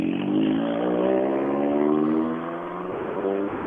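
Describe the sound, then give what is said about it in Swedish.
A Mitsubishi Evo 10 rally car engine revs with a steady harmonic drone whose pitch climbs gently for nearly three seconds, then drops back and settles lower. “Nu har vi ju en eh, oerhört häftig bil inne här. Det måste ju vara eh, fantastiskt kul för sådana som får, får äga sådana bilar. Kim Koivio menar du i, i sin Mitsubishi Evo 10?”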